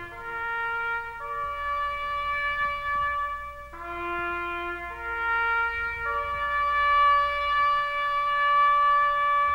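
A slow, mournful melody composed in 1862 to honor fallen soldiers plays alone. Its long, sustained tones are each held for a second or more, with clear steps in pitch between them, over a faint low hum.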